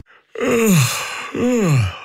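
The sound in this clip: Two drawn-out yawns from someone driving a car, each a breathy voiced sound that slides downward in pitch. The second follows closely after the first, with no talk.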